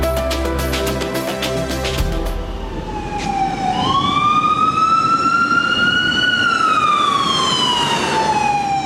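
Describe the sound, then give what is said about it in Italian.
An ambulance siren wails on a New York street, loud over a low traffic rumble, its tone sweeping upward and then slowly falling. “Le sirene delle ambulanze a New York ormai non suonano neanche più, per quante sono le chiamate.”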